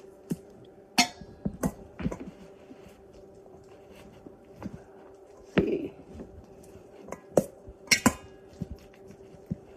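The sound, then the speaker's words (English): Italian seasoning and garlic being mixed in a bowl gives faint, irregular clinks and taps of a utensil against the dish, many scattered knocks with quiet scraping in between. “all right, now we're gonna add some our Italian seasoning and our garlic. We're gonna mix this all together.”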